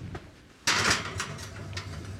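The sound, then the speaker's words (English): An oven door is pulled open with one sudden loud scraping clunk, followed by a couple of fainter clicks as it settles. “It's a heavy pot, so. All right. I'm going to let you do it. I'm opening the oven.”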